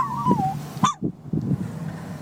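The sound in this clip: A person howling on request, with the voice imitating a wolf: a wavering howl that slides down in pitch, followed by a short second yelp and a few softer vocal sounds.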